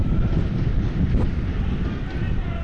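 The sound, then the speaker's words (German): Storm wind from a small thunderstorm moving in buffets the microphone, a loud, steady roar of low, blustering noise that runs without a break for the whole stretch. “Jetzt hier gleich ein kleines Gewitter oder was auch immer geht. Ja. Ihr hört es vielleicht am Mikrofon.”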